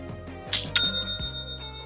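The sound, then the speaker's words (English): Shopify online store sale notification chime: a couple of bright, bell-like dings ring out over a soft, steady background tone, with a lingering ring afterward. “Aha, you know what that means. It's the sound of another sale on Shopify,”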